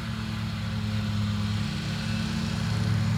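A lawn mower mows a field in a continuous low, droning engine hum that holds steady and loud throughout.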